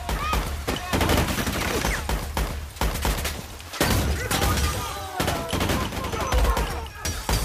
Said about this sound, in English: Firing as he runs, he takes down another soldier as they unload at him with everything they have.